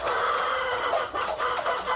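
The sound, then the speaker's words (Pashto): Chickens clucking in a small coop of raw mud bricks in a courtyard corner of an old mud house, where about a hundred are kept. The clucking is a dense, continuous chatter at a steady, fairly loud level, with no talking. “دغه چرګان د یاد شوي کور د انګړه په یوه کونج کې له خامو خښتو څخه په یوه کوچنۍ جوړه شوې خونه کې ساتل کیږي.”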